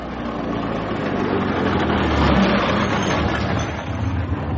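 A car engine rumbles as the car pulls up and then drives off, a steady, loud mid-pitched drone that swells briefly around the middle before settling again, with no voices over it.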